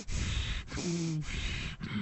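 A man imitates angry breathing in and out through the nose, in a few forceful, hissing breaths with brief pauses between them. A faint whistling tone rides on some breaths.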